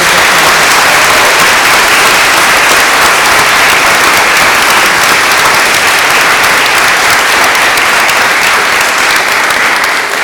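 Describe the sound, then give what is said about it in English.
Loud, sustained audience applause for the winner of a best oral advocate award, a thick wall of many hands clapping that stays level and continuous throughout. “applause”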